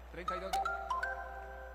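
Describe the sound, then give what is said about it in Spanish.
A short chiming jingle plays during a Colombian football radio broadcast. A few bright, bell-like tones step from note to note over a steady low hum. “Suena la señal que une a Colombia.”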